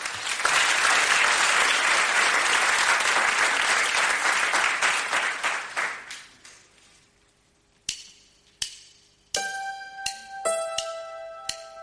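Audience applause at a live radio concert, dense clapping for about six seconds that thins out and dies away, followed by several sharp struck, ringing instrument notes with clear tones.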